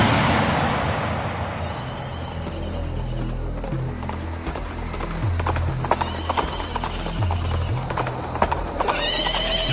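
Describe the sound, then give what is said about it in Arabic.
A ridden horse's hooves clip-clop in a long, steady run of many hoofbeats over a low rumbling drone, with a whinny near the start. “اركب فرسك، بدنا نروح نشوفها وين راحت.”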